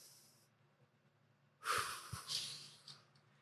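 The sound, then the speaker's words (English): A deep breath drawn in: a soft, airy rush of inhaled air lasting about a second and a half, rising out of near-silence, faint overall and without speech. “So I like to take a deep breath.”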